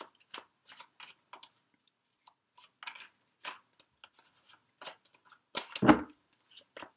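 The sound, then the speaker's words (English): Tarot cards are handled and drawn from a deck, making many short, crisp papery flicks and snaps at irregular intervals, with a louder rustle near the end. “Let me get one more card for you from the Tarot of Sexual Magic in the area of physical intimacy.”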